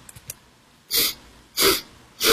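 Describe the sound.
Sniffing from an animal searching with its nose to the floor: a few faint, quick sniffs, then three loud, breathy sniffs at an even pace, heard alone without talk.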